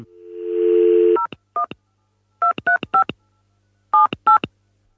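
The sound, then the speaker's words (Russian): A steady dial tone gives way to telephone keypad tones as a number is dialed to call a port, the short beeps arriving in uneven bursts with brief pauses between groups. “Давайте позвоним в порт.”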